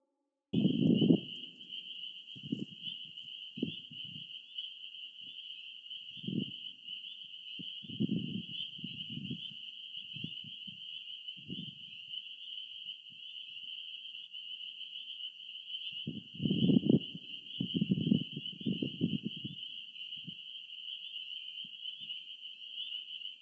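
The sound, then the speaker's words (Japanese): Frogs call in low, throaty pulsing croaks that come in irregular bursts and clusters, over a continuous high, even insect trill. “どんな声でしょうっていうのをちょっと聞いてください。びっくりしますよ、これがカエルっていうような声です。”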